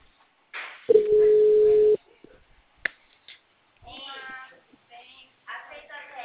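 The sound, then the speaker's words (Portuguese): A telephone ringback tone sounds once as a steady, even tone lasting about a second, followed by brief noises and then people talking. “Chama até cair na caixa.”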